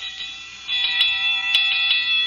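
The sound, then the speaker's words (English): A firehouse fire alarm bell rings continuously with a bright, high, sustained tone that grows louder after the first moments, broken by a few sharp clicks. “That alarm is still ringing.”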